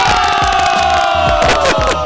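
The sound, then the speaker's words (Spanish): An audience cheers and shouts loudly. Dense, continuous crowd voices whoop and roar without pause for about two seconds. “¿Qué pasa con esos aplausos? ¡Bravo!”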